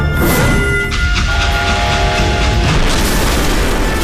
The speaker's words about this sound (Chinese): 一声巨响，列车车头脱离轨道，侧翻着向前冲出一段，后面的列车扭七八歪的挤作一团。